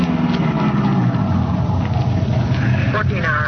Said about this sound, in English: we drove down a couple of blocks to an all-night gas station